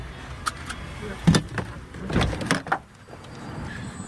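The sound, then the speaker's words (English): Car door and movement as a man gets out of his vehicle: a few short thuds and clicks, fairly faint, over low background rumble. “Oh, shit. He's getting out of his vehicle.”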